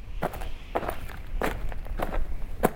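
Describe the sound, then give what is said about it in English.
Footsteps hiking up a dry wash of bleached white limestone rocks and boulders along a trail, a steady series of crunchy steps at an even walking pace with no talk. “We hike up a dry wash of bleached white limestone rocks and boulders along the trail to Devil's Hall.”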